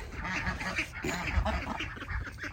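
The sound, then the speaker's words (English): Ducks quacking in the morning, eager to be fed: many overlapping quacks in a busy, continuous chatter with no pause. “there's the ducks. I always have a lot to say in the morning. It's probably because they want to get fed.”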